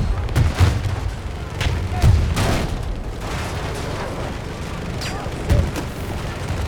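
Heavy cannon blasts from a tank in a video game: a few deep booming thuds over a continuous rumbling battle din with crackling shots.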